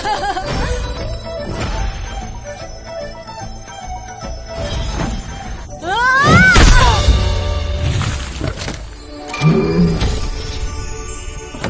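A hammer smashes a magic stone: a loud crashing impact wrapped in swirling, rising whoosh effects, with another heavy thump a few seconds later.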